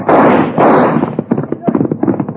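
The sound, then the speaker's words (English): Gunfire in an old Western drama as a shot cuts through a rope: two loud, booming blasts ring out one after the other, then men talk in a clipped, rapid exchange. “Did you see that? Cut the rope with his first shot.”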